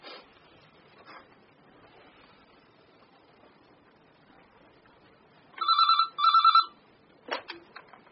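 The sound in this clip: A telephone rings after a number is dialled: one double ring of two short, bright electronic trills in quick succession. It follows a long stretch of near-quiet with faint clicks and ends with a brief sharp knock.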